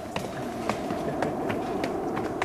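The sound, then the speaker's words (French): Footsteps climbing a red staircase up to a studio, a steady series of soft footfalls over a constant background hiss. “Eh bien, allons-y, on va monter cet escalier rouge qui nous mène au studio.”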